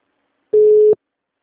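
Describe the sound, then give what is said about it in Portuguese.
A telephone busy tone after a dropped call: one steady, mid-pitched electronic beep lasting under half a second, clean and alone against silence. “Alô? A ligação caiu. Alô?”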